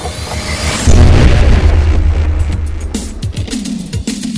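A sci-fi time machine firing up: a loud, deep booming roar swells in after a fading high whine, then continues as rumbling, whooshing pulses.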